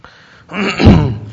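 Throat clearing during a Bible sermon: one rough, gravelly rasp that swells quickly, peaks and then trails off, heard alone with no talk.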